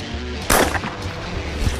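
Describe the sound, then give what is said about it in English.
A single sharp shotgun blast fired at a clay target during clay shooting. The loud report stands alone and fades quickly into faint background noise. “the main thing is we're going to break a lot of clays today. All right, cool. Good. We're ready to fire. Ready to go. Pull.”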